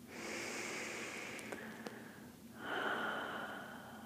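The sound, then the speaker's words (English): A slow, deep breath taken during a guided meditation, soft and airy, a steady breathy hiss that shifts in tone partway through, heard alone with no talk over it. “take a nice deep breath here”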